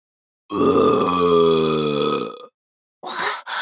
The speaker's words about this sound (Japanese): すみません、ザーメンゲップが、出ちゃいました